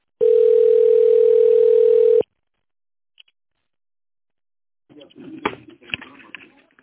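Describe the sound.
A steady telephone ringback tone sounds while a call is put through to a company secretary, one unbroken mid-pitched tone of about two seconds. Silence follows, then a voice begins talking.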